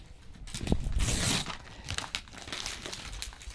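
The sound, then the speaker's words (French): Crinkling, rustling and tearing of packaging as a parcel holding a book is opened and unwrapped: irregular bursts of crackly crumpling, fairly faint, with a denser flurry early on and scattered crinkles after. “Donc là, on est en train d'ouvrir le paquet, de découvrir ce que c'est.”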